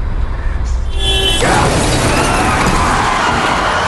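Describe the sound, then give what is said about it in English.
A white cargo van crashes into the side of a car at a junction. A sudden loud, broad burst of crunching impact noise stays harsh and steady to the end, with no talk. “A white cargo van smashes into the side of his car.”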